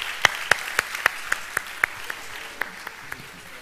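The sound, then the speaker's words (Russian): Applause at a church service, heard as sparse, slow clapping on an even beat with sharp individual claps rather than a dense roar. The claps grow slightly fainter toward the end. “Let's give her a big hand. Давайте похлопаем ей.”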